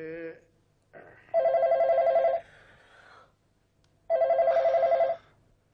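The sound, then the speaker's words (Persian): A telephone ringing in a family home, two bursts of a rapid warbling electronic trill, each lasting about a second, separated by a pause. “بچه ها چرا پس تلفن رو بر نمیدارین عزیزم؟”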